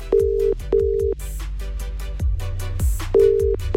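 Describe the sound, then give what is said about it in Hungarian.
Steady beeping tones ring out in evenly spaced pulses as a telephone call is placed from a radio studio, over a thumping music bed that continues between the rings. “És hogy még kinek, az meglepetés. Valakit hívok.”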